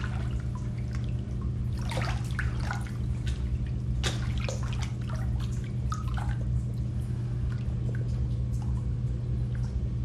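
Water drips and softly trickles as a person reclines and slowly sinks into a filled bathtub. Scattered small splashes sit over a steady low hum throughout.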